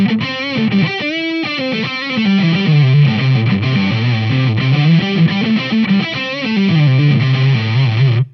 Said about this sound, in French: Alors, par exemple, voici un son de JVM en position manche.